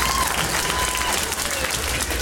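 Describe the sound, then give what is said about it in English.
Audience clapping at a comedy club: a dense, steady burst of applause from many hands, even in loudness from start to finish. “And, yeah, clap it up.”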